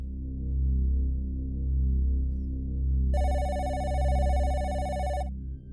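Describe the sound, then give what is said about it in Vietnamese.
A telephone rings loudly in one sustained, bright, trilling burst of about two seconds over a low, steady droning background. “tiếng điện thoại treo lên inh ỏi, kéo nó ra khỏi giấc ngủ say.”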